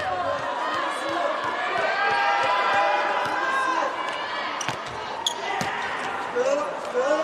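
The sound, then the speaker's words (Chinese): A volleyball serve during a match involving Brazil's team, with a few sharp ball strikes and thumps rising above a constant, loud crowd murmur in the arena. “麦亚拉上来发球”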